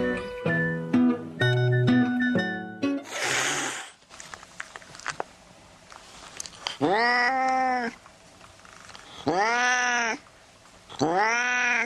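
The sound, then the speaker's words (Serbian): A tomcat meows loudly, giving three drawn-out, wavering cries spaced a second or two apart. “A onaj važni član porodice je mačak.”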